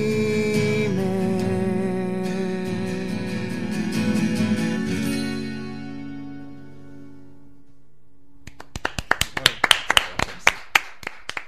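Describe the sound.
A single person claps in a control booth after twelve-string guitar music fades out. The claps come as a steady series of sharp, distinct slaps, alone and evenly spaced.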